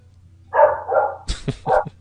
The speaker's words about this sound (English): I hope she keeps barking. I need to get a recording of barking dogs.